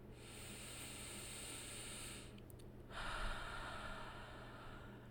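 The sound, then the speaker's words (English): A slow, deep breath in and out during a guided meditation: two long, soft, hissing airy phases separated by a short pause, heard alone. “Now I want you to come back to you. Take a deep breath.”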